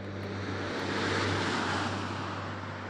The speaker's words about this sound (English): The space shuttle Atlantis is returning to Earth and closing in on the runway.